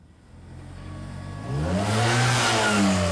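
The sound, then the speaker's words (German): A motorcycle engine revs as the rider drives off. A low drone grows louder around the midpoint, then its pitch climbs with rising harmonics, and no one talks over it. “Der soll sich auf sein Motorrad setzen und losfahren.”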